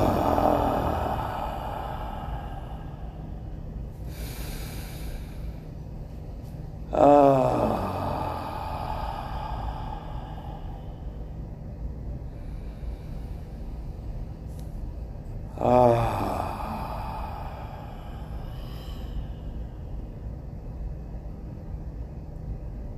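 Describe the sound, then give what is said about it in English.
Deep, slow breaths drawn in and let out during a guided group relaxation, a few soft hissing inhales and breathy exhales, some with a low voiced sighing edge, over a steady quiet background hum. “let's just do 3 deep sweeping breaths together and just intake all this abundance of beautiful air.”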